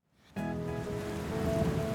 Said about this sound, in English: Can we play in the rain? Sorry, but you can't. Look at those black clouds. The storm is coming.